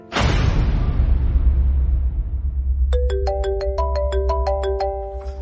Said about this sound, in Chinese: 任斌的电话打了过来